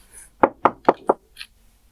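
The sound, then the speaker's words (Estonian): Four sharp, evenly spaced knocks on a door against near silence, followed by a fainter, higher tap. “koputad ukse peale, vaatate üksteisele otsa”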